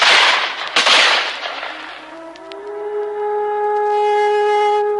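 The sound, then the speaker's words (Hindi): Gunfire pours in a volley on an old man during a battle of Santal tribal fighters: loud, noisy bursts of shots crowd the first two seconds, then give way to a steady, high tonal drone. “वृद्ध पर गोलियों की बौछार हुई।”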